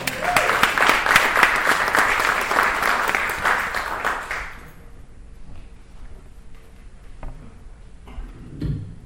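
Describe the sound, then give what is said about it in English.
Applause welcomes a poet to the stage at a poetry reading. Loud, dense clapping lasts about four and a half seconds, then stops abruptly, leaving a quieter room where a faint voice can be heard. “And please give him a warm hand, Larry Matsuda.”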